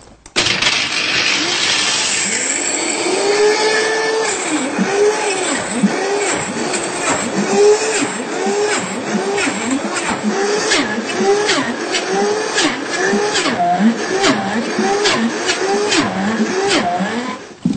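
A food mixer blends chocolate powder from the cocoa bean into a smooth paste, its motor whirring loud and continuous for about eighteen seconds with a regular, wobbling rise and fall in pitch.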